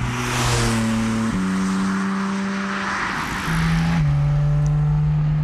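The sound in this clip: A car pulls away calmly with a loud, steady engine drone whose pitch shifts in a few steps as it drives off.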